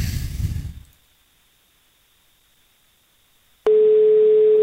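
A telephone tone sounds while a call is placed to a listener. A short burst of noise fades into near silence, then a loud, steady single-pitched tone begins and holds unbroken.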